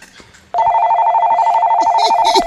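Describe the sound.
A telephone rings with an incoming call: a loud, continuous warbling electronic ring that begins abruptly after a short quiet stretch and holds steady to the end, with voices faint beneath it.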